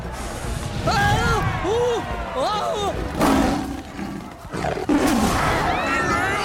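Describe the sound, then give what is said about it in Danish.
Lions roaring in the African wild, several loud overlapping roars and growls that rise and fall in pitch, with voices and a busy crowd-like din underneath throughout. “Det er mig, løven Alex fra Central Park.”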